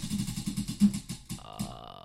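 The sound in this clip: A prize wheel spun during a game, giving a rapid run of many ticks that gradually slow after about a second, with a sustained tone entering near the end.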